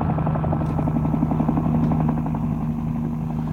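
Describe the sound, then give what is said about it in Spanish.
A helicopter is landing, with a loud, steady, rapid thumping of rotor blades over a constant engine drone. The sound holds level throughout with no voices. “Pancracia infectada y un helicóptero aterrizando con Alvarito en su interior.”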